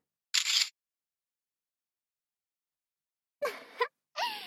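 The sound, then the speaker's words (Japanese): A camera shutter snaps once as a photo is taken, a short crisp mechanical click alone in silence, followed after a long pause by further brief bursts of sound. “写真撮っとこうっと。”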